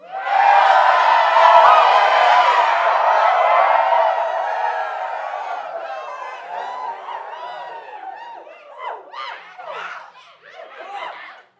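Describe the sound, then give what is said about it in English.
Studio audience cheering and laughing: a loud, dense crowd roar fills the first half, then thins into scattered chuckles and snickers with a few louder bursts of laughter near the end. “Our lovely studio audience is always happy to see us. And for the first time ever, you're able to hear that.”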